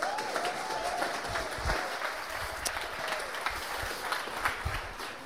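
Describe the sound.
An audience applauds to welcome a speaker before a morning talk in a series on the Psalms. The clapping is steady, dense and moderately loud, and it holds at an even level throughout.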